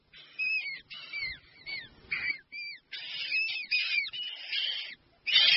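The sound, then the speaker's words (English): Galapagos penguin chicks calling inside lava tubes on a volcanic, rocky island coastline: many short, high-pitched chirping and squealing calls, fairly faint, come in quick bursts separated by brief pauses. “The chicks of Galapagos penguins.”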